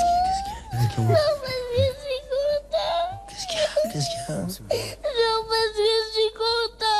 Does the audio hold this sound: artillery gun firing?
no